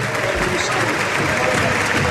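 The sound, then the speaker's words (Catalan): Crowd at Camp Nou applauding as De Jong leaves the pitch during a substitution at a Barça football match, a broad, steady wash of clapping under a commentator's voice. “De Jong, aplaudiments del Camp Nou per ell, marxa de la gespa del Camp Nou i en el seu lloc hi entra Kessié.”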